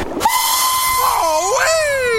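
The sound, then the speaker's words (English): A toy train's steam whistle gives one long, bright, harmonic hoot over a hissing background. The tone wavers in the middle and glides downward at the end. “Wonder if I can pump up this toy train.”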